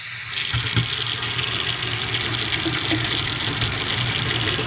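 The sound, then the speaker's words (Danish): Running tap water, a steady, loud, broad rush that starts after a brief quieter moment and holds evenly to the end. “da skal jeg spille over en lite opptak her av varmt og kaldt vatten. Nå skal du si hvem som er hvem.”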